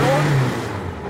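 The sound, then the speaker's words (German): A vintage touring race car engine, a borrowed collector's car, roars as it is started and revved: a brief, loud, rough burst of engine noise that eases off slightly toward the end. “Und weil das geliehene Sammlerstück nach dem tagelangen Check nochmal gestartet werden muss, heißt es jetzt anschnallen für die Ohren.”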